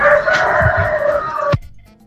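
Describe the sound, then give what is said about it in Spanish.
A rooster crows once in a loud, drawn-out call lasting well over a second, then breaks off abruptly, with no talk over it. “mira nomás el gallo, ya nos cantó el gallo”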